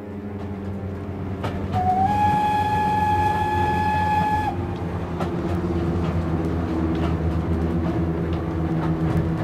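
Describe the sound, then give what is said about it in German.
A train runs on rails on a slow journey toward Paris, giving a steady low rumble throughout. A sustained, whistle-like tone rises above it briefly early on. “Muss dieser Zug so langsam fahren, mein Gott? Und das bis Paris, Stunden um Stunden. Sämtliche Gedanken fertig gedacht, durchgewalkt, festgehämmert von diesem ewigen Schienenrhythmus.”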